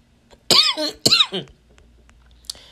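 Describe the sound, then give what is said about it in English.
Two harsh, sudden coughs from a person in quick succession, loud and raspy, followed by quiet. “I will not allow this cough to defeat me. It's trying though, y'all.”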